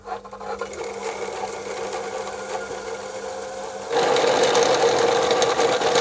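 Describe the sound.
A winding machine spools line onto spare spools with a steady mechanical whir and a low hum beneath it. Near the end the hum drops away and the whirring jumps noticeably louder and brighter, then holds steady.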